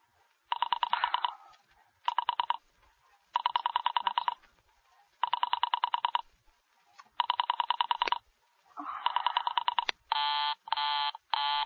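Telephone rings as an operator places a call: six buzzy ring bursts separated by short gaps, then three brief, brighter tones at the end, with no talking.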